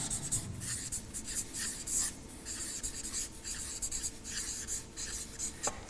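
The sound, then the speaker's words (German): Writing by hand during a Bible study session: quiet scratching strokes come in short rhythmic bursts, many strokes with brief pauses between them, and no talk. “ich schreibe jetzt mal persönlich angewendet”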